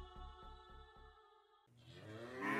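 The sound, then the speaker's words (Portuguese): Cows low as they quickly approach: a drawn-out, harmonic moo with a pulsing start is followed by a second, broader and louder call, both fairly faint. “Algumas vaquinhas se aproximaram rápido.”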